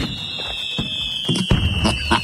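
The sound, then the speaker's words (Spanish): Fireworks at a village-style fiesta: a continuous high-pitched whistle runs throughout, punctuated by several sharp cracks and bangs that come more thickly toward the end. “cuando me toque entrar a mí como buen mexicano tiene que ser una algarabía. Una, ¿cómo se llama? Fuegos artificiales y todo el rollo”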